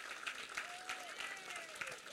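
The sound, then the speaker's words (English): Applause from a church audience welcoming its senior pastors: a quiet, even patter of many hands clapping steadily throughout. “Let's put our hands together and welcome Pastor Luke and Marilyn.”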